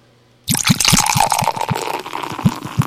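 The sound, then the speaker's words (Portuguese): Beer poured from a freshly uncapped bottle into a glass at a work site: after a moment of silence, a sudden fizzing, foaming rush begins, punctuated by many low rhythmic glugs. “Esperando esquentar um pouco mais o sol para destampar uma. Fazer aquele barulhinho que muita gente gosta. Ó... Ele fazer espuma no copo, né?”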